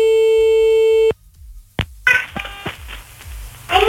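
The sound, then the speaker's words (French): A telephone call tone on a line where nobody picks up: one loud, steady, sustained tone lasting about a second, then cutting off abruptly, followed by a few clicks and scattered line noise. “c'est parti, minuit 31 et on appelle. Ça ne décroche pas”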